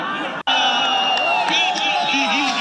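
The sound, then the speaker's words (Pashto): Cricket fans shouting and cheering for their teams at a final in Kunar's central stadium, a loud, dense mass of voices with sustained tonal yells and whoops and a brief dropout near the start. “دا د کونړ په مرکزی لوبغالي کې د کرکټ پای ته رسیدلو سیالي او ته د راغلو مینوالو د خوخی او د خپلو لوبډلو د هڅولو لپاره د چغو او چکچکو غوونه دي.”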